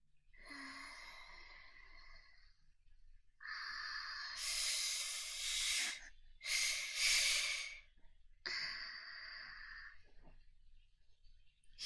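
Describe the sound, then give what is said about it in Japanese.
Deep breathing from a person: a few long, airy, hissing breaths, each drawn out over seconds with short pauses between. The breaths are faint and there is no talk. “分かった、待って。ちょっと一旦深呼吸するかな。”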